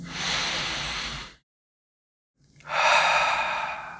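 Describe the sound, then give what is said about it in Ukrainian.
A deep breath in and out during a guided relaxation exercise for sleep: a strong, airy inhale of about a second, a full second of silence, then a long, loud exhale that fades out. “Зробіть глибокий вдих.”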